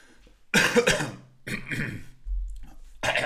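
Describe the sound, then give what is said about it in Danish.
A person with a slight cold coughs and clears their throat in a few harsh, raspy bursts separated by short pauses. “jeg hoster også lidt, jeg er en smule snottet”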